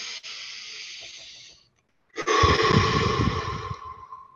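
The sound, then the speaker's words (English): Deep breathing done slowly and deliberately as a calming exercise. It comes as two long, airy breaths separated by a short silence. The second breath is louder and fuller than the first. “If I breathe”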